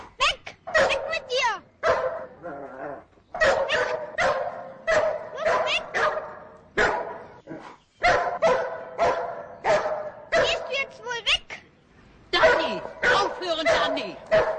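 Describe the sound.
A dog barks repeatedly, rushing toward a man beside a car, in many sharp, loud barks and yips in quick clusters separated by short pauses, with some whimpering between them.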